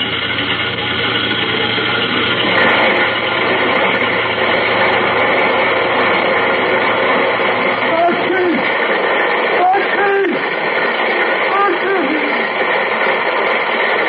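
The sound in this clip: Truck engine drones steadily and loudly as the dump body is cranked up to tip coal down a chute, a constant low rumble throughout with a few faint tonal sweeps near the end.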